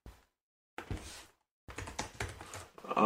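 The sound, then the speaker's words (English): Typing a search on a computer keyboard: a lone tap, then a short run of clicking keys, a pause, and a longer, quicker burst of keystrokes to the end. “So type in movies of 1988.”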